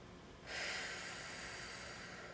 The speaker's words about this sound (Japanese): たっぷり吸ったらゆっくり吐いていきます